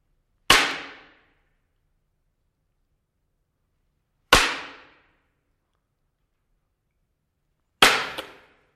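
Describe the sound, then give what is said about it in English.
Three sharp cracks of a one-inch wooden dowel rod striking, each a loud crisp snap that decays quickly, spaced evenly several seconds apart with silence between. “This is a one-inch dowel. They probably used something like this. And I want you to just hear this.”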